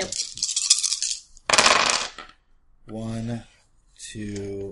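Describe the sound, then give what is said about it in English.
Dice are thrown and clatter in two bright, rattling bursts, after which people talk. “Ah, throwing dice.”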